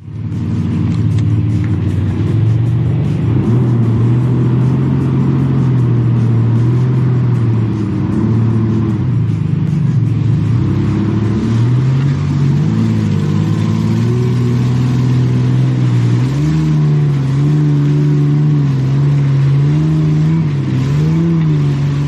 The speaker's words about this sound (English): This is my 97 FZJ80 on 37-inch mud tires that I was testing to see if I could actually make it through a specific mud pile.